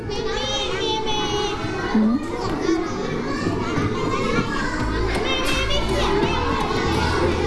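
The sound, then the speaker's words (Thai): Children's groups in a classroom talking loudly all at once, many overlapping young voices forming a steady, busy chatter with occasional louder shouts poking out. “นี่กลุ่มไหนเสียงดังกลุ่มไหนเสียงดัง”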